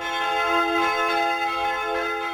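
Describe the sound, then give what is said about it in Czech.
Church bells ring out at Tetín, producing sustained, shimmering metallic overtones that blend into a continuous, evenly loud peal with gentle swells and no talking. “kněžna Ludmila, vítalo první turisty zvoněním zvonů kostela svaté Kateřiny”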